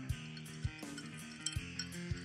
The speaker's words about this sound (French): le bruit des glaçons, voilà